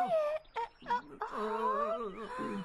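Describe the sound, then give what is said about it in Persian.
Someone crying in a wailing, moaning voice: a few short sobbing bursts, then a long, wavering drawn-out wail. “شما چرا گریه میکنی؟”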